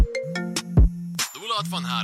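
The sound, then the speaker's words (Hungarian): An iPhone ringtone chimes in short, bright melodic notes in quick succession, with a voice joining toward the end. “Esküszöm, ilyenkor azt hiszem, hogy téged keresnek. Még amikor így csörög a telefon?”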